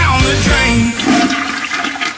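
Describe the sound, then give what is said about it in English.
A toilet flushes loudly with a rushing, gurgling swirl of water that churns strongly, then thins out into a lighter trickle. “Imagine if you flushed your toilet 195 times in a row every night.”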